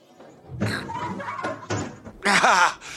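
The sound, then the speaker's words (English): An old window is wrestled open with several wooden knocks, thumps and rattling scrapes, and a voice is briefly heard near the end. “Maybe I'll just leave the window open and hope it wanders away or something. I'm gonna go open one now. Oh, these old windows, damn it!”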